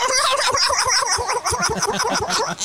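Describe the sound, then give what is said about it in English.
A person imitates a turkey's double gobble with the voice, a loud, rapid, guttural rattle of throaty pulses delivered in a fast, machine-gun-like burst. “Sound like a whole flock of gobblers, you see.”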